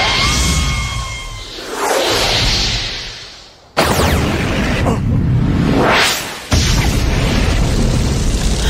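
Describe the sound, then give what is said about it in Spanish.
Loud cartoon whooshes and booms as a giant slingshot fires a fire-bird star shot. Roaring rushes of noise build in waves, with a sharp cutoff and then a falling-then-rising swoosh, all dense and powerful. “¡Miren el poder de mi arma nueva! ¡La resortera gigante de Kabuto! ¡Estrella del Ave de Fuego!”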